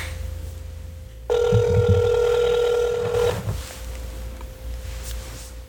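Telephone ringing on an outgoing call: a steady tone runs throughout, and one loud, buzzy ringing burst of about two seconds sits in the middle.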